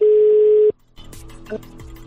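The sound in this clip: A single steady electronic phone tone sounds for under a second as option 2 is chosen in an automated supermarket customer-service menu, then cuts off abruptly into faint line noise.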